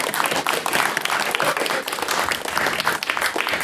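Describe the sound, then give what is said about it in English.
Audience applause at a university debating event, with dense, steady clapping that keeps an even level throughout without a pause. “And also, another round of applause for Ben and everyone from Queen's.”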